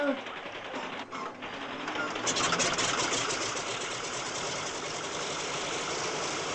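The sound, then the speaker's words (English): Propeller aircraft engine, a Lysander, started by hand-swinging the prop; a rough buzzing grows louder and settles into a steady, mid-pitched droning run. “I'll switch on while I turn the prop.”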